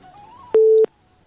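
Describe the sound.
A telephone busy tone after a call line is cut off: one steady, low-pitched electronic beep lasting about a third of a second, loud against a faint background hum.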